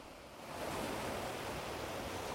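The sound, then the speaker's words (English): Ocean water laps gently against a rock at the shoreline. It makes a soft, steady washing hiss that stays faint and even throughout. “Water gently laps against it.”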